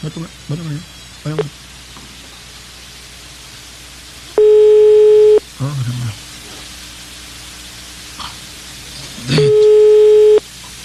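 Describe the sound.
Telephone ringback tone heard while a call is being placed: two loud, steady one-second electronic tones about four seconds apart, with people talking briefly in the quiet gaps between them.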